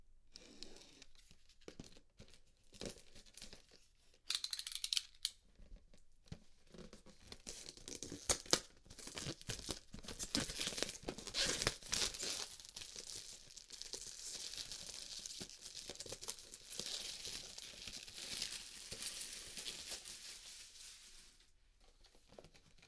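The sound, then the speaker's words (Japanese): A utility knife slits the plastic wrap on a box, and the film is torn off during an unboxing. Many irregular crinkles, crackles and tearing rustles follow, with no talking. “ここにカッターがありますので、シュッと線を入れて、”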